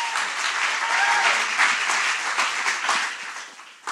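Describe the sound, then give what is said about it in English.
Audience applause welcoming two speakers at an evening worship gathering: dense, steady clapping fills the whole clip, easing slightly toward the end. “So can you put your hands together and welcome Katie and Jeremy as they come to speak tonight?”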